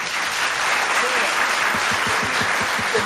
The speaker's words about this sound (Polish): Proszę, brawa dla Maćka.